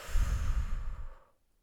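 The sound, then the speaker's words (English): A single deep breath exhaled during a guided breathing exercise: a soft, breathy rush of air, strongest at the start, that fades away after about a second and a quarter into silence. “Fill your head with air. hold for a sec. And breathe out.”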